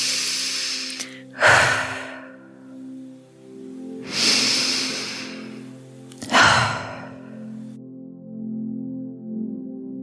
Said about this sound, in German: Du kannst tief ein- und ausatmen. Vielleicht magst du die Ausatmung auch über deinen geöffneten Mund aus dir herausschicken.